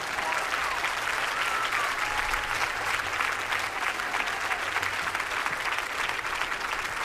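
An audience applauds performers at a French-language live show, dense steady clapping with some crowd noise mixed in, loud and sustained throughout.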